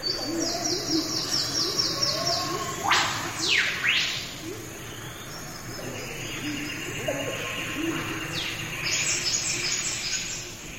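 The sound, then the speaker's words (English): Birdsong in a Queensland rainforest: several birds overlap with repeated high chirping trills, a couple of loud sweeping whistles and soft low cooing calls running underneath. “find out more about the bird life there, and it sounds a bit like this.”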